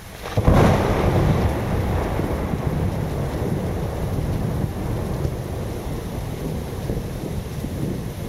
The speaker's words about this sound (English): That is the sound of lightning striking very close, a giant spark leaping from cloud to ground and back up again